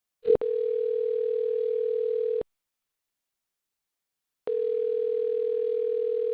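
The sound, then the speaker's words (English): A telephone ringing tone while placing a call: a steady low tone lasting about two seconds, a silent pause of similar length, then the tone returning, with no voices. “let's just call Emma and see what's up, okay?”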